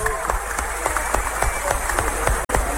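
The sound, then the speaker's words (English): A church audience claps in a steady rhythmic beat, like applause during a worship service. The crisp claps repeat at an even pace throughout, with a brief cut near the end. “clap for Jesus.”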